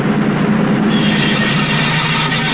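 A locomotive train passing, a loud, steady rolling roar of rail cars with a sustained metallic whine from the wheels, continuous throughout with no voices.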